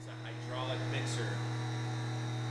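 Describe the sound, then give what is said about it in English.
Steady low electrical hum from candy cooking kettles, each holding about 50 pounds of sugar or corn syrup, in the candy factory kitchen of Neiman's Candies in Wauwatosa, with a brief faint voice early on. “This will generally have about 50 pounds of product per batch. So if it's sugar, if it's corn syrup, this is what you're looking at. It's the sounds you hear when cooking is actually going on.”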